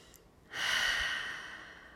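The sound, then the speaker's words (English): A loud, deep breath taken during a guided breathing exercise. It begins abruptly after a short quiet moment as one long, airy rush that holds steady and then slowly fades. “If that means a few deep breaths that are loud, that's fine.”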